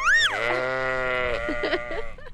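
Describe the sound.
A sheep bleats in a pen on an agricultural community in the Jordan Valley. The single drawn-out, wavering bleat starts high, then settles lower and holds, over steady background noise.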